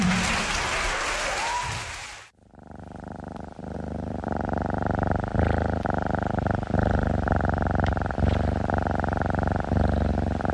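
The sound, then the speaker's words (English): A healthy, well-cared-for domestic cat purrs loudly and steadily in a low, rumbling drone with fine rhythmic pulses, following about two seconds of broad, rushing noise at the start. “That sound? That's the sound of a healthy, well-cared-for cat.”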